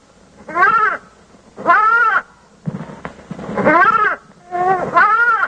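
Sheep bleating: several wavering, nasal calls of fairly high pitch, each followed by a short pause.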